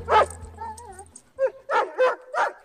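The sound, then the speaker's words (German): Dog barking: a brief whining whimper followed by a few sharp, separate barks in a steady rhythm, clear and moderately loud over a low hum, with no other voices. “Richtig, das war ein Hund.”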